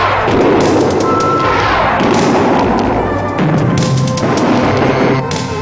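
Cartoon blaster shots and explosive booms from an animated action scene, loud and dense throughout, with repeated thuds and crashes layered over a constant busy background.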